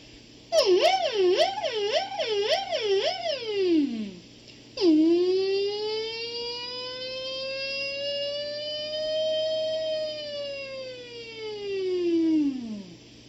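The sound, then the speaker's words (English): A humming voice imitates a police siren. A quick wavering yelp of several pitch swings drops away after about four seconds, then a long sustained wail rises, holds high, and slowly falls to finish. “vocally, that's what the vocal police siren sounds like”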